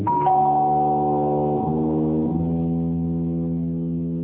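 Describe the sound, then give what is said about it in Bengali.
An electronic doorbell chime rings with sustained, harmonic tones that step down in pitch a few times, then hold steady to the end. “অনেকক্ষণ ধরে calling bell বাজছে।”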